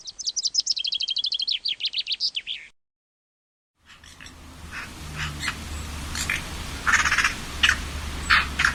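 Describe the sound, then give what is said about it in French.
Common chaffinch song: a bright, rapid trill of descending notes ending in a quick flourish, heard alone. After a short silence comes a noisier stretch with scattered sharp bursts. “Le pinson des arbres.”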